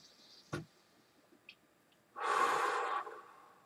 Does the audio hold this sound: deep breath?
yes